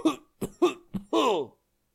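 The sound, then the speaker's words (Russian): A seriously ill man in a painful coughing fit: four short, harsh coughs in quick succession, then one longer, strained, voiced cough, heard alone. “Цань Ваньхэ снова испытал болезненный приступ кашля”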